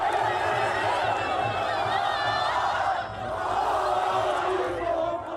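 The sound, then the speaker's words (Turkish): A crowd of yellow-and-red football supporters celebrates a championship in Taksim Square, Istanbul, with flags and flares, a dense roar of shouting voices mixed with laughter that dips briefly midway before swelling again. “Sarı kırmızılı taraftarlar geç saatlere kadar cadde ve meydanlarda bayrak ve meşalelerle şampiyonluğu kutladı. İstanbul'da Taksim Meydanı, Ankara'da da Kızılay kutlamaların adresi oldu.”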